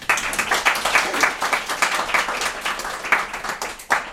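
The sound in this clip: An audience applauds to welcome a guest speaker at a celebration event, with dense, continuous clapping that holds an even level for about four seconds and a brief louder burst near the end.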